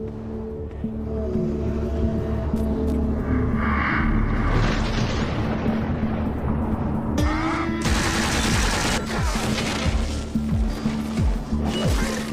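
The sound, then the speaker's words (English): Gunfire from ghouls in the Fallout video game: dense, continuous bursts of shots and booming blasts that stay loud throughout with no pauses. “Zombies have guns? They do now. In Fallout, these are ghouls. Ah. Cool gun.”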